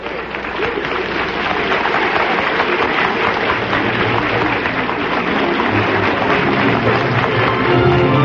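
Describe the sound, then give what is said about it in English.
A theater audience gives a sustained ovation at the Little Theater off Times Square as the cast takes bows after a play premiere; thick, continuous clapping holds at an even level throughout. “Now the audience is giving them a great ovation.”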